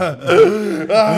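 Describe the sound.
A voice imitates a man's big, dramatic inhaling gasp: a loud, voiced, wheezy intake of breath with a wavering moan-like pitch, split into two stretches by a brief catch in the middle.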